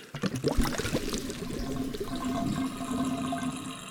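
Water drains from a spaceship bridge in a rushing, flush-like gurgle: a few sharp splashes at the start settle into a steady, faint churning flow.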